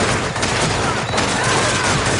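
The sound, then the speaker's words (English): Gunfire in a Vietnam War shooter video game forms a loud, dense wall of overlapping shots and automatic bursts that runs without a break from start to end. “you just wander around in the open shooting at them, and a lot of it sounds like this.”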